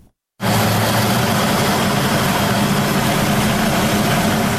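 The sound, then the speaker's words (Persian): Steady, loud mechanical drone of a small electricity-generating turbine in Dowab village, Khinjan district, Baghlan, powering about 50 homes; it cuts in abruptly after a moment of silence and holds an even, unbroken hum. “این توربین کوچک در روستای دوآب ولسوالی خنجان ولایت بغلان برای حدود 50 خانواده انرژی برق تولید می‌کند.”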